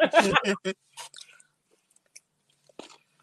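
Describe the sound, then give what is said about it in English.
Crunchy chewing of pickles: a few short, moist crunches and mouth sounds, faint and spaced out, after a louder burst of sound at the start. “country ass pickles. Mm-hmm. We crunching on both sides”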